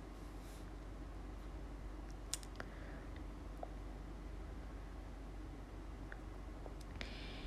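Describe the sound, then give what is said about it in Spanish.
Sparse, faint typing clicks, a few isolated taps scattered irregularly over a steady low hiss. “así que voy a estar escribiendo de mientras”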